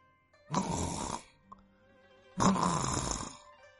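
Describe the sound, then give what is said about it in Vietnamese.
Soft snoring from a man who has just fallen asleep: two long, breathy snores, each lasting about a second, separated by a quiet pause. “Tiếng ngáy khẽ vang lên.”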